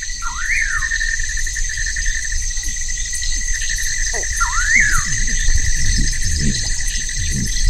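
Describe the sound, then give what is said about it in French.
Insects chirp at night in a steady, high-pitched, continuous chorus. A few short rising chirps stand out above the unbroken drone. “Donc il y a beaucoup d'insectes.”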